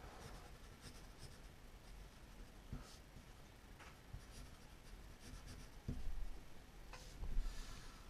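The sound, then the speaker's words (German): A hand writes out an induction proof in math, and faint, soft scratching strokes run throughout, broken by a few sharper taps and slightly louder strokes near the end. “Hier schreibe ich erstmal die Induktionsvoraussetzung, kurz abgekürzt mit IV, und die Induktionsbehauptung, IB,”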